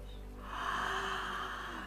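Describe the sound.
A long, slow exhaled breath during a guided meditation: a soft, airy rush that swells after a moment and holds steadily, over a faint low drone.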